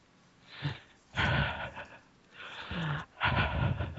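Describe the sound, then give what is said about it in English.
Heavy breathing into a microphone: a few loud, breathy huffs and exhales separated by short quiet gaps, with no talking. “Enough of the heavy breathing.”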